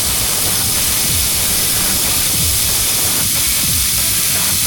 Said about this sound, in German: Wasserblaster feuerfrei.